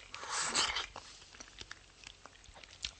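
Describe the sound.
Soft, wet chewing of pineapple jelly with chewy nata de coco: a louder burst of mouth noise early on, then many small squishy clicks and smacks.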